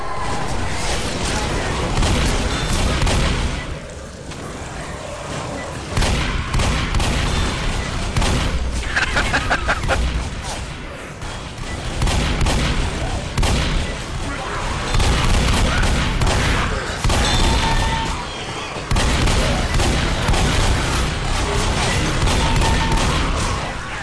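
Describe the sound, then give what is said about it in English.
Armor-piercing shotgun shells fire in a video game: loud, dense blasts overlap almost without a break, with a few short lulls between heavy volleys. “You gotta love those armor-piercing shotgun shells.”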